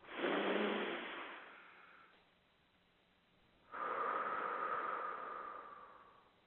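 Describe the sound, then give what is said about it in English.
Noisy deep breaths in a guided breathing exercise: two long, loud, airy breaths, each swelling then fading, separated by a quiet pause. “let's take a moment and do three deep breaths, and I'll make them nice and noisy for everybody”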